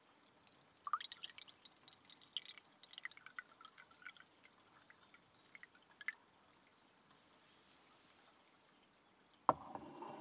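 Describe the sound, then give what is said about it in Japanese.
Blended tea being poured into a cup, heard as faint, scattered drips and small trickles of liquid, with a brief louder burst near the end. “ブレンド茶もそろそろいい頃合いでしょうから、こちらのカップに注いでおきましょう。”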